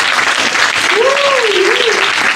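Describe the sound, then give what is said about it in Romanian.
Audience applause at a live event as two artists are invited forward: loud, dense, steady clapping from many people, with a single voice calling out over it midway. “aplauze!”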